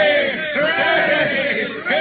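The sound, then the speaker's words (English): A crowd of voices cheering hooray in unison for the founding of a town in Nevada, a few loud, sustained group shouts repeated in close succession. “Three cheers for the best little town in the West.”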